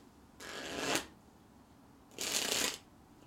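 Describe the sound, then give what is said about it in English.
A deck of playing cards is shuffled twice. Each shuffle is a crisp, rattling burst of about half a second, and the two are separated by quiet. “Just, can you guys hear this? Can you hear me shuffling this deck?”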